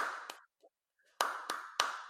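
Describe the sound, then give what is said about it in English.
Small hand claps in a conference room, a few sharp, isolated claps at uneven intervals, each trailed by a short echoing tail. They are quiet overall, with near-silent gaps between them. “I was just doing a little clap for Molly, but I'm in this weird conference room, so I actually should be talking quieter because there's an echo.”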